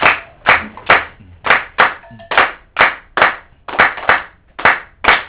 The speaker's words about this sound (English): Okay, so let's continue to clap until he finishes.